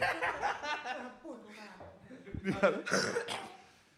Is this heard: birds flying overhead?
no